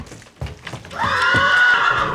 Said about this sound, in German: Man muss ihr schon gut zureden und sie mit einem Leckerli in den Transporter locken. Gerne verreisen unsere Pferde nicht.